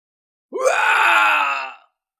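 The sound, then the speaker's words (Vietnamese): One agonized scream: a drawn-out harmonic cry that swoops upward in pitch at its start, holds for about a second, then cuts off abruptly. Silence surrounds it. “Tiếng kêu thét thảm thiết, sinh linh gần đó lần lượt mất mạng.”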